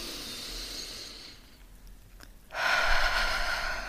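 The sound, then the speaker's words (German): Deep breathing in and out during a relaxation exercise, eyes closed and breathing into the belly: a soft, breathy stretch of airflow, a quiet pause, then a louder, rushing breath that carries to the end. “möchte ich, dass du 10-mal ganz tief ein- und ausatmest. Schließe dabei die Augen, atme bis in den Bauch und danach tief aus.”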